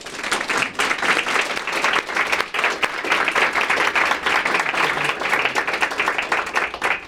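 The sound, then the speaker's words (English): Lively audience applause welcomes former CMS administrator Dr. Donald Berwick at a Harvard School of Public Health event. Dense, rapid clapping holds strong for about seven seconds, with only brief dips. “please join me in welcoming Dr. Donald Berwick.”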